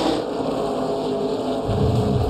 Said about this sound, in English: That was a lap around Watkins Glen last year, and we are bringing it back this weekend.